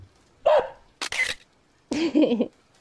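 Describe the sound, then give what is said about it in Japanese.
A camera shutter click as someone photographs a 12-year-old dog at a birthday celebration. One short, sharp burst sits between two brief voiced sounds. “写真撮るからこっち向いて。”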